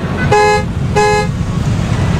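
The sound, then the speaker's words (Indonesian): A bus horn honks twice as the bus departs, two loud, steady-pitched blasts of equal length separated by a short gap, over a low engine rumble. “bis akan berangkat.”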